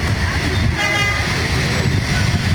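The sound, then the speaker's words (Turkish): Dense city traffic at a standstill on a rain-slick Istanbul highway, a constant roar of engines and road noise with car horns tooting through it. “İstanbul'da trafik durma noktasına geldi.”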